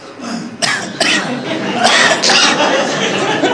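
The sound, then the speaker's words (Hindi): Coughing by a person asked to cough during a first-aid demonstration for food stuck in the throat while eating. A few harsh, breathy bursts mix with people talking. “खांसी करो”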